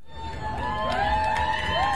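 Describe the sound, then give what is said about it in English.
Students cheer on a high school quad as their principal is surprised with a Principal of the Year award. High-pitched whoops and shouts overlap in a steady crowd noise. “A surprised Folk walked out onto the Myers Park High quad to cheering students waving cutouts of his face.”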